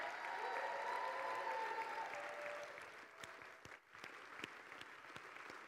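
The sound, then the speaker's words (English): A church audience applauds and cheers for the fathers at a Father's Day service. Dense clapping gives way to thinner, scattered claps toward the end. “Can I have all the dads just stand to your feet, all the fathers in the house? Come on, can we make some noise for the dads?”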